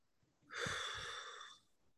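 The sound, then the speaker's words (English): One deep cleansing breath, a soft airy rush of air that swells and holds for about a second before fading, quiet and alone with no talk. “I let the person hear me take deep breaths, like cleansing breaths, like,”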